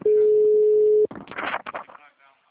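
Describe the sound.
Ringing tone of an outgoing phone call: one steady, loud electronic tone lasting about a second, then a voice begins talking.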